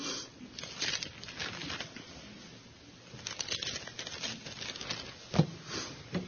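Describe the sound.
Bible pages being turned before a scripture reading from 2 Peter: soft papery flutters and rustles with several sharper flicks, uneven and fairly quiet throughout.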